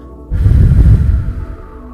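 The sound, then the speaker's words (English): A forceful exhale blows out as much air as possible in a breathing exercise. The loud, rumbling gust of breath starts abruptly and holds for over a second before easing off. “And as you exhale, I want you to just completely blow out as much air as possible to release that blockage.”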